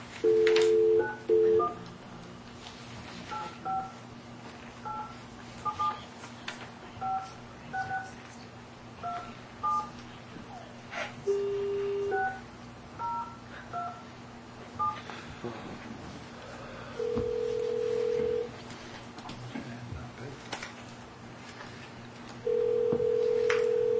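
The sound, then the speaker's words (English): Touch-tone dialing on a telephone line: many short dual-pitched beeps in quick runs, then a few longer sustained tones, all fairly quiet over a steady low hum. “Dial in now.”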